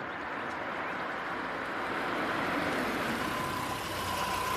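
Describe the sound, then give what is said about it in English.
A car approaches on a road, heard as a steady, low engine rumble with broad road noise that grows slightly louder toward the end. “He looks up at a car approaching.”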